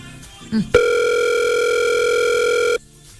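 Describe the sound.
A single steady telephone ring tone from an unanswered call holds level for about two seconds with a bright, buzzy edge, after a brief soft sound just before it.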